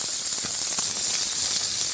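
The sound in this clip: Meat sears on all sides in a hot frying pan, giving a bright, continuous sizzle and hiss that stays loud and steady throughout.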